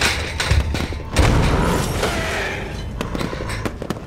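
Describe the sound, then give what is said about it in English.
A pipe bomb goes off in a video game: a sudden loud boom, then a sustained roar of noise and scattered thuds that slowly fade. “Use the pipe bomb! Hey. It's out!”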